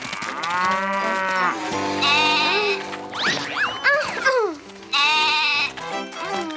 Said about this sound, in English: Stop, goat!